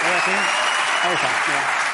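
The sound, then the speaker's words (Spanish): Applause requested for an anonymous hero: dense, steady clapping runs throughout at a loud, even level, while a person talks over it. “quiero pedir un aplauso para ese héroe anónimo que es el abuelo de Salva Spin”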